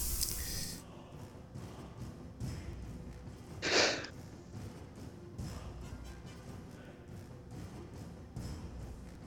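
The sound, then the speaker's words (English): A single short, forceful sneeze bursts out during a tabletop dungeon-crawl game session, standing alone against an otherwise quiet, low background. “Sorry, I had to sneeze there.”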